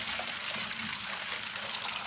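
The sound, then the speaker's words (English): Sizzling of an egg frying in a pan, a steady, dense crackling hiss that runs unbroken and evenly loud throughout, with no voices. “This is drugs. Drugs is the pan. And you fry the egg in the pan, and that's your brain on drugs.”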